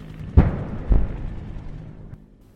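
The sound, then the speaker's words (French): Two sharp, heavy gunshot bangs ring out in a street, each a sudden dull thump followed by a fading rumble, with quiet between them. “On entend un premier coup de feu.”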